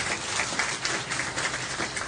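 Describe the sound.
An audience applauds during a church sermon, a steady dense wash of many hands clapping at moderate level throughout, with no voices standing out.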